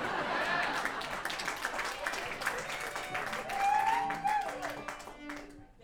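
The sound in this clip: An audience applauds at a live fiddle-band concert: dense, steady clapping mixed with cheers and a whistle, thinning out at the end.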